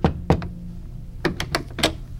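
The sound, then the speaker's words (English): Knuckles rap on the wooden door of a house: a few sharp knocks, a pause, then another short cluster of knocks, crisp and distinct with no voices. “I kept walking and knocked on his door”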